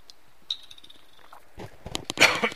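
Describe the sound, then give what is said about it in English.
Coughing from something caught in the throat: near silence at first, then a few harsh, sudden coughing bursts that grow louder toward the end. “Excuse me. Now what that was, something just got in my throat there.”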